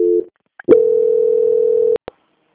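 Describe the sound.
Telephone line tones during a bank call transfer: a short tone and a brief blip, then a steady single-pitch tone lasting over a second, ending with two quick clicks.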